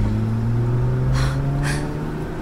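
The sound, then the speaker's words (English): A car engine hums low and steady as the car drives toward the desert. A couple of brief, breathy gasps rise above the drone midway. “Why are you driving into the desert?”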